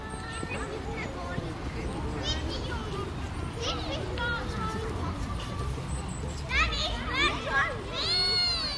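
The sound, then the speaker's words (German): A whole group of children plays on the lawn of an apartment building's garden with their teacher. Many overlapping young voices shout, call and chatter in a busy, continuous hubbub, with a few louder squeals near the end. “Und plötzlich sind die Geräusche von der Stadt im Hintergrund verschwunden. Dafür ist eine ganze Truppe von Kindern mit ihrem Kinski-Lehrer auftaucht. Sie haben den Rasen genauso bespielt”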